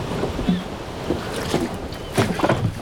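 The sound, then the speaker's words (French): Soft splashes and sloshing of a rowboat on the water as it is lowered from a ship to set a buoy over a wreck. A few brief splashy bursts rise above a steady wind hiss, with the strongest near the end. “Amenez le canot.”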